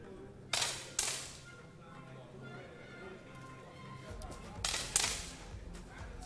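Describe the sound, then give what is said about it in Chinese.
Rifle shots ring out during a shooting competition final: four sharp, bright cracks in two quick pairs, with a quiet pause between the pairs. “两名意大利的选手率先完成了击发”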